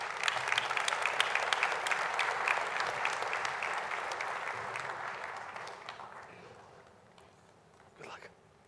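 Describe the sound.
An audience applauds to welcome a speaker to the stage at an event on future cities, a dense, sustained clapping that gradually thins and fades toward the end.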